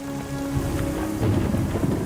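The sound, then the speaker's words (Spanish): Heavy rain pours steadily with thunder rumbling low beneath it, a dense hiss of falling water that swells slightly louder in the second half. “Pero la lluvia no para.”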